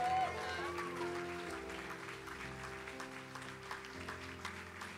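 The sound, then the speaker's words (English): Audience applause welcoming a comedian onto a stage: steady, dense clapping that holds at an even level for about five seconds over a sustained musical backing. “So, ladies and gentlemen, would you stand to your feet and give a massive welcome for the amazing Joy Blundell's in the house?”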